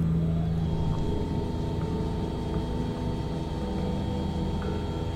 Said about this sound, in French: Et je vais donc vous lever l'antenne en fait actuellement pour vous l'orienter donc direction sud avec un angle d'élévation de l'ordre de la trentaine de degrés.